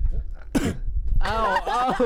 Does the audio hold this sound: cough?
yes